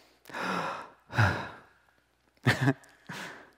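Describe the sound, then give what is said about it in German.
Deep human breathing, with four loud, breathy bursts of air in and out separated by short pauses. The breaths are sighing and full, and no speech is heard. “diesen Atemzug konntest du tun”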